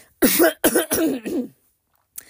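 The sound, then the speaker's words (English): Throat clearing by a person who is losing their voice: a few harsh, rasping bursts in quick succession, followed after a pause by one faint, short rasp. “And if I'm coughing, you're going to get it. If I'm clearing my throat, you're going to hear it.”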